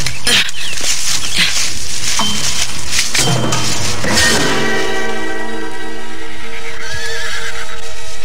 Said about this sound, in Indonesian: Di hadapanku ada puluhan ekor kuda. Aku akan masuk ke tengah kelompok kuda-kuda itu